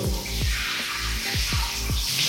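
Water running from a tap, a steady bright hiss with a few quick low plops and gurgles breaking through it.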